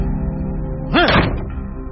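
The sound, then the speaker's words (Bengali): A bedroom door slams shut with a single heavy bang over a steady low musical drone. “দড়াম শব্দ করে তাঁর শোবার ঘরের দরজা বন্ধ হয়ে গেল”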